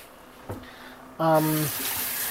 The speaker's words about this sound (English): And I'm washing my hands because there's the chance of a raw egg getting on